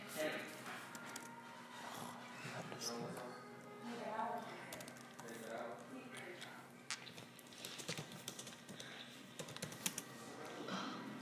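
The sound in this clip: Rapid typing on a computer keyboard: many quick, uneven clicks running throughout at a low level, mixed with people talking.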